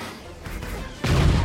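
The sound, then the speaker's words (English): Blasters or proton torpedoes fire in a Star Wars video game space battle. A short burst comes first, then a louder, sustained booming barrage. “They're like pink. Ba-boo. Ba-boo. I've never seen those blasters before. Is he using... Are those proton torpedoes or something?”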